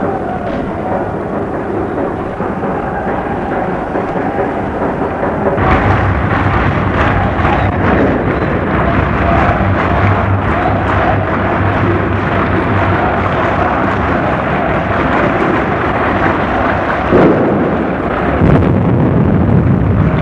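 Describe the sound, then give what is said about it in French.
Offensive grenades exploding in the night on rue Saint-Jacques: a dense, loud, rumbling roar that grows heavier partway through, with a sharper burst near the end. “Maintenant, rue Saint-Jacques également, les grenades offensives explosent.”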